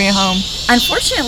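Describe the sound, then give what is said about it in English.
Cicadas or katydids droning on a Southern night make a steady, high, continuous buzz that runs unbroken beneath a person speaking. “Cicadas are the correct name, but in the South we call them locusts. So you hear the locusts. We call them katydids.”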